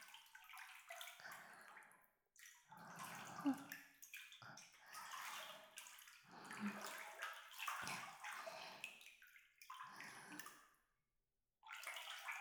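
Soft sloshing and swishing as a hand moves through hot bathwater. Several separate bursts of water movement come with short silent pauses between them, all fairly quiet.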